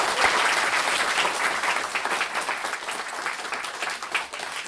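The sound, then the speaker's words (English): Audience applause: dense, steady clapping that runs the whole clip at an even level, with no talk over it. “Round of applause for Mubs, that was wonderful.”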